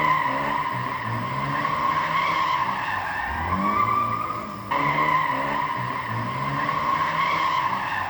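A car drifting makes a sustained, wavering tire squeal over engine rumble. The loud, continuous screech briefly dips near the middle and then resumes at full strength.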